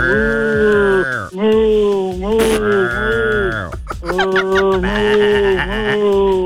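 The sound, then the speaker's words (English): A human voice imitates a cow mooing, giving a long string of drawn-out, wavering low moos one after another, loud and nearly continuous with only brief breaks between them. “Moo, moo, moo, moo, moo. Oh, come on, mix it up a little. What if another cow was talking to you”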